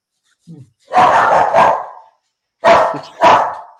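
A heeler dog barks in two pairs of four loud, sharp barks, preceded by a faint short yelp. The barks are separated by a brief silent gap.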